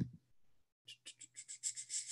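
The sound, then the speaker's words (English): Light keyboard typing, faint and quick: after a short quiet pause, a rapid, slightly uneven run of soft key clicks patters along without any voice over it. “I can't talk and type at the same time, you guys.”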